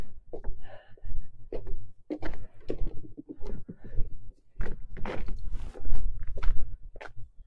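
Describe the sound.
Footsteps on an outdoor walk in sunny, calm weather at minus four degrees, a steady run of many fairly loud steps with short breaks between groups.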